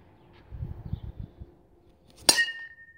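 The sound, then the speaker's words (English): A single crisp metallic ping as a metal bat hits a wiffle ball during family play in a yard, followed by a brief high-pitched ring that trails off. Soft low thumps come before the hit. “That was the sound of my dad hitting a wiffle ball with a metal bat.”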